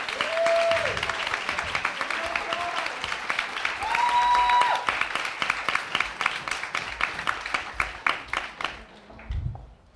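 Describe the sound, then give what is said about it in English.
Audience applause with a few whoops greets a panel of beauty writers being introduced at Strand bookstore. The clapping is loud and dense and thins into scattered claps that fade near the end. “Yes, I just cheered for myself.”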